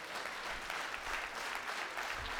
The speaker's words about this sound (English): Now you can clap.